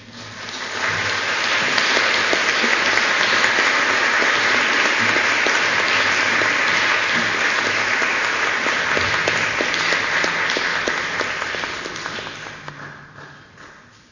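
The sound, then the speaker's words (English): An audience applauds to welcome a speaker at an evening event at the San Francisco Zen Center, a dense, sustained roar of many clapping hands that holds steady before fading away at the end. “Please put your hands together to welcome Zenke.”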